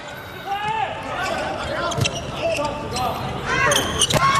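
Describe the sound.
Table tennis ball being served and hit in a match, heard as a few sharp, light clicks spaced apart under steady, excited talking.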